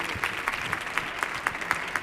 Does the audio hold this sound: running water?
no